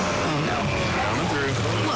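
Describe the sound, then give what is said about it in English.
Steamroller driving as a sound effect in a State Farm car loan radio advert, a heavy, low engine rumble with a voice speaking over it. “Like take on a zombie apocalypse with a steamroller.”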